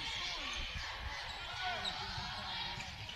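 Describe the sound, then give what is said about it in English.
Basketball bounces from quick bounce passes thrown against a full-court press in an Auburn versus Dothan game, a few thuds heard under steady crowd noise. “Couple of bounce passes to try and break the press.”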